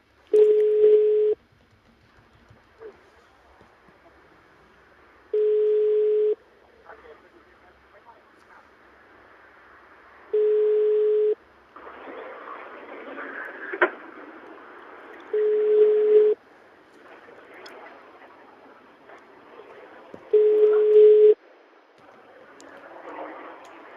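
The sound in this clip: Ringback tone of an unanswered outgoing phone call that goes to voicemail: five steady, mid-pitched tones, each about a second long and evenly spaced several seconds apart, with faint talk and noise running between them.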